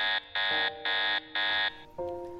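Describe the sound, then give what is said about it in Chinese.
A system alarm warning of a restart: four loud, evenly spaced buzzing blasts with bright, harsh tones, followed by a shorter, lower electronic tone. “这已经不知道是第几次系统发出重新启动的声音了。”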